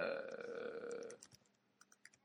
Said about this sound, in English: So you're typing Celtic left back?